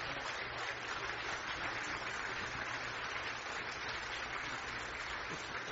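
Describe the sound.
Audience applause welcoming a speaker to the stage, heard as faint, dense and even clapping that holds steady without a break.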